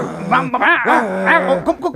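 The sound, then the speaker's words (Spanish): An angry, rabid dog growls and barks in a few loud, harsh bursts with wavering, arching pitch, packed closely over about two seconds. “Mira, el perrito está muy rabioso.”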